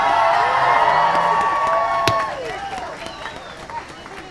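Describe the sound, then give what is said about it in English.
A crowd at the Columbia College convocation cheers and whoops, with loud, sustained shouts of rising and falling pitch. After about two seconds the cheering drops to a quieter level and scattered voices trail off. “Those were the sounds from convocation over the past week.”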